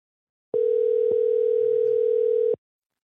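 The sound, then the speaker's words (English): Calling tone from a phone after the call button is pressed: one steady, unbroken mid-pitched tone lasting about two seconds, with brief clicks where it starts and stops and a faint click partway through. “I'm going to do this call button here. All right, let's see what happens.”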